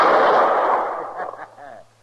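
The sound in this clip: Gunshot from a quick-draw of a holstered gun aimed at a bottle: a loud, sudden blast that decays into a long rumbling tail, with a brief voice sound as it fades.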